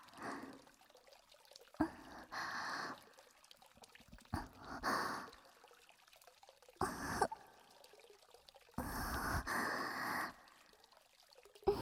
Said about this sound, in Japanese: かき回してほぐして、もっと注いでくれやっしょ。